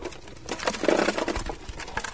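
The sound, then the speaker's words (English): Clattering, grinding din of rock-crushing machines turning earthquake rubble into sand and gravel in Port-au-Prince. The noise is a dense, steady rattle whose loudness swells and dips without clear separate strokes. “Workers crank rock-crushing machines that literally turn earthquake rubble into sand and gravel that can be then used to make concrete floors.”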